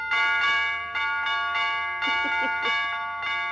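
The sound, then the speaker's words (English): Broken door chimes ring repeatedly, bright bell-like tones with long sustained overtones, struck in an irregular series of about eight hits, loud and ringing on with no speech. “What did that doorbell say? It's broken”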